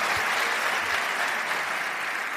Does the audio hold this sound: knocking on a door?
no